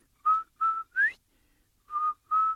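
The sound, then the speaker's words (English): A person whistles to imitate a turtle's call from a Cherokee story: five short, clear, steady mid-pitched notes. The third note slides upward, and a pause falls before the last two. “Now, in the summertime, if you're out in the woods or out there and out in the field, if you hear this beautiful whistle,”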